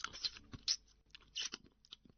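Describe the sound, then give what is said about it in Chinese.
Chewing on an oily braised pork knuckle: a few faint, moist, crunchy bites and smacks arrive in uneven bursts with quiet gaps between them. “老爸我要是不吃这个大肘子，恐怕就再也没有减肥的劲头了啊！”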